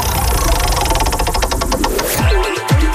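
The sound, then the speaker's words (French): Clicking of a prize wheel being spun in a summer prize game: a dense run of rapid ticks that gradually spread apart as the wheel slows, over a loud, busy background. “il faut faire tourner la roue, faisons tourner.”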